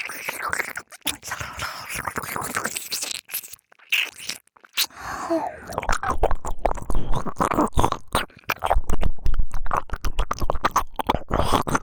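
Wet ear-licking ASMR mouth sounds: a steady stream of close, crackling smacks, slurps and soft lip clicks, easing into a brief lull midway before returning as a denser, louder run of licking.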